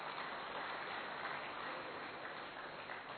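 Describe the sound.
Applause at a gathering honouring and welcoming a guest: a steady, dense patter of many hands clapping that continues evenly and fairly softly throughout.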